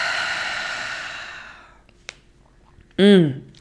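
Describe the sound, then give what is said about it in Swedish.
Slow exhale through the mouth after a deep breath during a guided relaxation exercise: a long breathy sigh with a soft voiced tone fades over about two seconds. A brief click and a short loud voiced sound follow. “ta ett djupt andetag in genom näsan, fyll upp bröstkorgen, magen med ny luft, ny energi. Och släpp långsamt ut andetaget genom munnen.”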